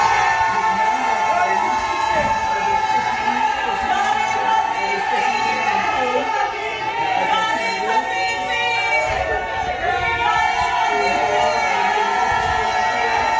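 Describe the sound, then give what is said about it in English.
A dense crowd of PNM party supporters cheers, shouts and whoops without pause as a candidate leaves after filing her nomination papers, overlapping voices forming a loud, steady roar throughout. “And what you're hearing is the voice of several PNM supporters waving flags.”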